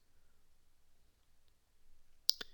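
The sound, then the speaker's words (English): Two quick mouse clicks, made when clicking save changes in a computer settings screen, come right after a stretch of near silence with faint low hum. “Click on save changes.”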